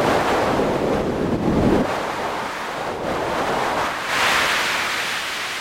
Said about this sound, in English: the speed of helium as it was moving by the satellite, I was thinking that this would translate directly to something that might be similar to the sound of wind blowing here on Earth.